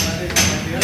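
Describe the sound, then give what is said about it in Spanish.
Construction work on a fire-damaged building: two loud, sharp hammer-like clanks ring out over a steady background of work noise. “Desde luego que este es el sonido de la reconstrucción.”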